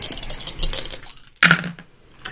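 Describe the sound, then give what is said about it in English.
A single die rolled during a tabletop fantasy role-playing game: a dense run of light clicks and clatter, then one sharper clack with a short trailing rattle before it settles. “So you're rolling one dice. One die.”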